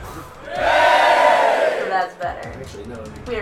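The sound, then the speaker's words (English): A crowd's awed reaction, a loud group vocal swell that rises, holds for about a second and a half, then fades out, followed by talking. “The crowd is awed. A-W-E. Yay! That's better.”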